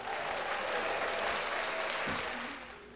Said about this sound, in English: Just give a shout out to the audience. They probably gonna be an audience for much longer than knowing how this shit go. But you know, everybody, give it up for them.